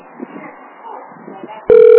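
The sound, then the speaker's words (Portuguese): An unanswered telephone's ringing tone cuts in loud and steady near the end, following a stretch of faint, murmuring voices. “Só chama e ninguém atende.”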